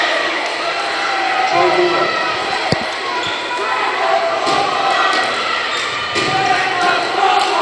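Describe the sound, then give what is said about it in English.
Crowd cheering and celebrating at a high school basketball game, a loud, steady roar with a few sharp thumps scattered through it and voices mixed in. “I'd say the Forest Hills crowd is celebrating. Good basketball game.”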